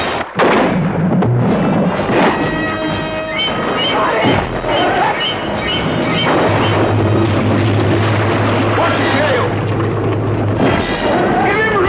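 A sharp gunshot near the start, fired at a charging shark of about 25 feet and three tons, followed by loud orchestral music and deep rumbling booms that continue throughout.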